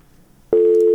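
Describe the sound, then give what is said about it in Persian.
Telephone busy tone after a call disconnects: faint low hiss, then a loud, steady electronic tone that switches on abruptly midway and holds to the end. “تلفن قطعش راځي”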